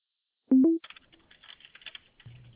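Typing on a computer keyboard: a brief loud tone, then light, irregular key clicks in quick clusters, fairly faint, ending with a low hum.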